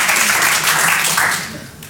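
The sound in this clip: Short burst of audience applause, a dense rush of clapping that stays level for a moment and then tapers off toward the end.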